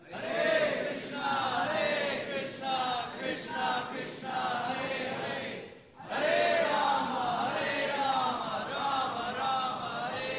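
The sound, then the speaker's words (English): An audience chants together in unison at a devotional chanting program: a dense, loud mass of voices with wavering melodic lines that dips briefly midway before resuming at full strength. “Let's chant one more time, everybody.”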